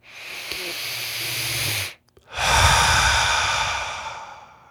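A deep breath taken slowly: two long, airy, hissing breath sounds separated by a brief pause, steady and fairly loud, with no voices.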